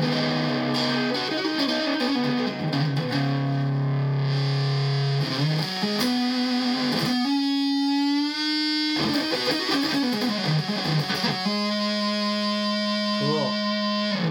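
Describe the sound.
An electric guitar plays through a fuzz pedal on the front pickup, giving thick, sustained distorted notes that shift between pitches with slides and a wavering bend near the end. The sound runs continuously and fairly loud throughout.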